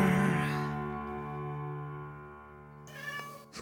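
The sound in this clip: A cat lets out a single long, drawn-out meow, held at a steady, fairly low pitch.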